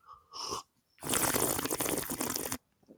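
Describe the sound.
Beer slurped while air is sucked in through it in the mouth, a harsh, airy, bubbling hiss lasting about a second and a half before cutting off abruptly.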